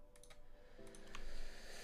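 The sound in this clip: Computer keyboard typing as someone writes: a few faint, quick key clicks that are quiet throughout.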